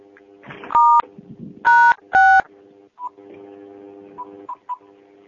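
Telephone keypad tones as callers on a conference line press star six to mute: three loud, short dual-tone beeps in quick succession, with faint line noise and soft background sounds around them.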